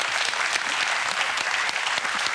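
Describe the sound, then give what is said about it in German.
Steady audience applause from a TV quiz show studio crowd: dense, even clapping that holds at a constant, fairly loud level throughout, with no voices standing out. “Großen Applaus für Basti.”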